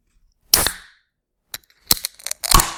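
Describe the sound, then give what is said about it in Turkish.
A fizzy drink can is opened: a sharp crack from the tab, then a few more short cracks and hissing bursts of escaping gas, with silence between. “Dose. İçecek kutusu. Ve şimdi pratik bilgiler köşemizde bu gazlı içeceklerin kutusunu açtığımızda ortalığı batırıyoruz.”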